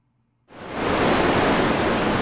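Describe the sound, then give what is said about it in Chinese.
Sea waves surge around a swimmer struggling forward through the open sea: after a short silence, a loud broad rushing wash of water begins abruptly and holds steady without a break. “小黑全身沾满了各种谷子，在大海中奋力地向前游去”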